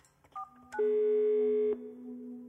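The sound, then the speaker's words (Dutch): A telephone number being dialed: a couple of quick, quiet tone beeps, then a longer steady tone lasting about a second, followed by a fainter lower tone that lingers to the end. “Ik besluit haar te bellen.”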